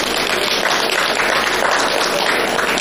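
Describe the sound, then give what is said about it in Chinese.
Audience applause at a Chinese folk-art stage show: dense, steady clapping holds at an even loudness for the whole clip, with no voices above it. “其实您不用鼓掌，我们都是死词儿啊。您不鼓掌我也这么说啊。”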